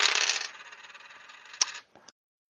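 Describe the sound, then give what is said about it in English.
Three dice rolled, a continuous rattling clatter for about a second and a half, then a sharp click and a couple of quieter taps as they settle before silence. “I'm only rolling. I'm rolling 3 dice for this.”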